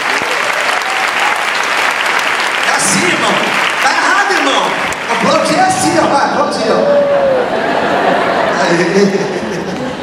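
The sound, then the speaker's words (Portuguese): An audience at a church service applauds: loud, sustained clapping that continues almost without a break, with voices mixed in among the clapping. “Vamos aplaudir essa irmã maravilhosa.”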